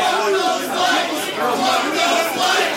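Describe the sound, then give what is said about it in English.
A wrestling crowd at a live XICW show chants loudly in unison, the massed voices swelling and dipping in a steady rhythmic pattern throughout. “We have an F those lights chant coming from the crowd now.”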